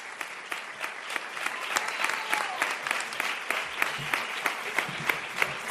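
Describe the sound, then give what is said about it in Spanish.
Dense audience applause rises at a live Spanish-language event as a performer is welcomed: many hands clap in a steady, continuous patter with sharp, loud peaks throughout. “Un aplauso para Yanni.”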